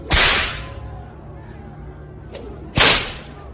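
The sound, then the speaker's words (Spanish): Two loud, sharp whip lashes crack in a flogging, one near the start and one near the end. A faint snap falls between them, over a low, steady background. “Es así como continuaron los latigazos dirigidos a los muslos, piernas, nalgas, vientre y parte de los brazos y el pecho.”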